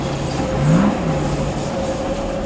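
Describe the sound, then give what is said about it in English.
A driverless electric light-rail train passes beside a street racing circuit in London. A steady, loud mechanical hum carries a thin tonal whine, with a brief tone that bends up and back down midway. No voices are heard. “That's the sound of a DLR train. Driverless electric vehicle running alongside the London ePrix XL circuit, which is around and inside XL.”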